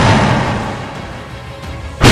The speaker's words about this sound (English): Then the Lord caused fire and burning sulfur to fall like rain on Sodom and Gomorrah.